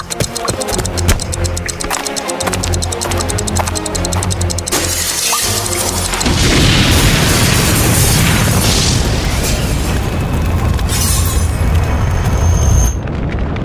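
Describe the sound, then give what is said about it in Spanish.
A powerful explosion sound effect bursts into a loud, broad, roaring rumble that lasts several seconds, after a stretch of rhythmic mechanical clicking and ratcheting. “Y no sabemos si lograron escapar después de una potente explosión.”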